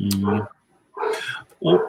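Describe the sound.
A dog barks in the background in a few short, loud bursts separated by brief pauses.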